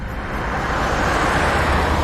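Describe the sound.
A car driving back toward a mine, giving a steady, loud low rumble of engine and road noise that holds constant throughout, with no talk.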